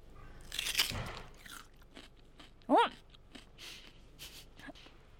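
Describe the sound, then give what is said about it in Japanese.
A single loud, crisp crunch as someone bites into a raw, freshly harvested Asao daikon radish, standing out against quiet, faint background sounds. “今朝採れたばかりの朝尾大根をご用意いただきまして、私生でかじらせていただきたいと思います。”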